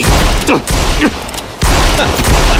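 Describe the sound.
Gunshots ring out in several sharp, loud bursts, fired from below at a target trapped up above. The cracks come in quick succession with short gaps between volleys, over a dense, noisy background.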